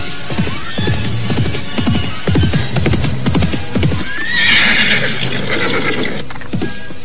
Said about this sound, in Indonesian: Akan tetapi tiba-tiba mereka dikejutkan oleh derap kuda yang datang ke arah mereka.